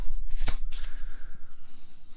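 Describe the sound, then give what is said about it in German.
Playing cards are shuffled in a quick, soft riffling flutter. Many rapid pulses repeat steadily at a moderate level, with a sharper snap near the start. “So, ich habe die Karten gemischt.”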